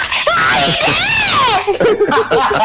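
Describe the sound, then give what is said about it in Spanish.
High-pitched human scream used in a radio promo, a loud wailing cry that sweeps up and then falls in pitch over about a second, followed by a few shorter, choppy vocal bursts. “en cada momento que nosotros volvemos al aire, sale ese grito que a Grey le sale casi, casi igual.”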